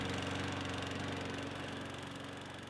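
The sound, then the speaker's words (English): A lawn mower engine drones steadily in the hot afternoon, a fairly faint, even, pulsing rumble that carries on alone without a break and eases slightly toward the end. “Well, I gotta mow the lawn, dear.”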